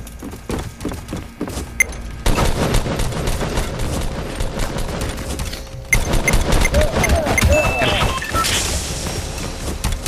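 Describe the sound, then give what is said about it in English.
Video game gunfire: dense bursts of rapid automatic shots run almost without pause, with heavier thumps and sharper, louder onsets partway through. “He's trying to shoot me, man.”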